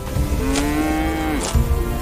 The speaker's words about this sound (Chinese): 杨军便赶着200多头小黄牛进山，平缓的山地草甸是他们的天然食堂